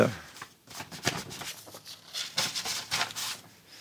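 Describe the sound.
Paper rustles as a binder of letters is taken out and its pages leafed through, a run of crisp, uneven flicks and shuffles with a voice heard at times.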